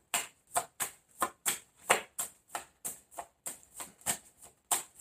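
Tarot cards being shuffled and drawn from a deck, many quick, crisp papery riffles and flicks in a steady, even rhythm, soft and alone.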